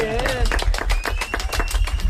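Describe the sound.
Applause: a rapid, dense clatter of clapping hands runs throughout at fairly loud level, with voices talking over it.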